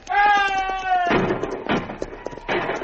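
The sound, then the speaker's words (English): Gunfire sound effects ring out in a western radio drama during an Apache ambush at a river. A shouted voice comes first, then a few sharp bangs follow amid voices. “Return fire! Two of our men already shot, and we cannot fall back.”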